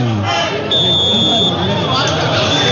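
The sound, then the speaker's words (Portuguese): The end-of-match signal sounds at the Moisés Lucarelli football game between Ponte Preta and Avaí, a steady high electronic tone lasting about a second under a commentator's voice and crowd noise. “49, você vai ouvir o sinal já de 50 e vai terminar o jogo.”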